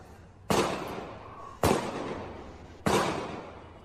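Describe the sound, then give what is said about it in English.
Gunshots from a video being played: three evenly spaced loud cracks, each with a long decaying tail, with no talking over them. “gunshots”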